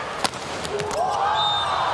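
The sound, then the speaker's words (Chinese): A volleyball serve by Yuji Nishida in a match against China: one sharp ball strike, then a few lighter thumps over a steady crowd roar, with a rising whistle-like tone. “哦，西田有志的发球，”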